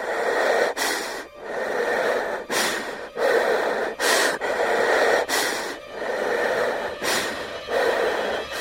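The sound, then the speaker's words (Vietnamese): Heavy, ragged breathing of a terrified person: loud, sharp gasping inhales alternate with long rushing exhales in a steady, repeated rhythm, heard alone without speech. “Về sau thấy ghi tiếng hít thở nặng nề.”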